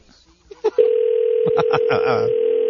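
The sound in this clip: A steady electronic telephone tone from a call that goes unanswered starts after a few short clicks and holds unbroken to the end, with people talking over it.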